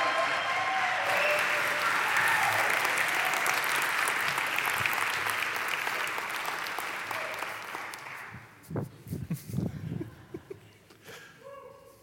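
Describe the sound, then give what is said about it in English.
A church audience at OKC First Church applauds to welcome the preacher. Dense, steady clapping holds for about eight seconds, then thins and fades, leaving a few scattered low thumps. “And now as Logan comes up, would you please welcome him? A big OKC First Church welcome.”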